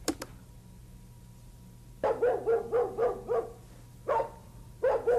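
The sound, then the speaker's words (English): A neighborhood dog barks in a quick run of many sharp, evenly spaced barks, falls silent briefly, then lets out a few more barks, all standing clearly above a low, steady background hum. “That's a dog, isn't it?”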